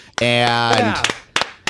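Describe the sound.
A few sharp hand claps from a remote guest ring out around a sustained voice. The slaps are crisp and widely spaced, with the last ones coming alone after the voice stops.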